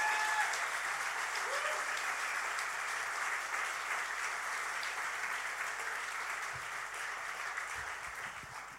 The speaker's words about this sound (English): Would you go crazy and please put your hands together and welcome Yeton and Lediana.